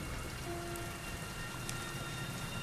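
Pouring rain falls as a steady, even hiss of many drops striking the ground, fairly quiet and unbroken from start to finish.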